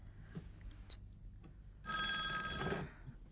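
Telephone bell ringing in a single bright, trilling burst about a second long, rising clearly above a quiet, faintly noisy background.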